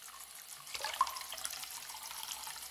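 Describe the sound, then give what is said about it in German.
Water running from a tap into a washbasin with the plug in: after a brief quiet moment, a soft, steady rush and splash starts and continues faintly. “So, ein Stöpsel rein. Wasser ins Waschbecken.”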